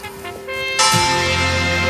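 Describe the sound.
Church bells chime during a religious procession on the morning of a local fair. Sustained ringing tones hold steady, then a loud fresh strike lands and its bright partials ring on.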